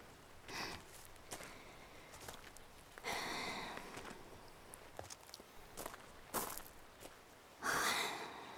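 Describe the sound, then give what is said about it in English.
A hiker catching their breath on a morning trail, with heavy breaths, sighs and sniffs at irregular intervals and footsteps faintly audible between them. “I'm okay, yeah. I'm just catching my breath.”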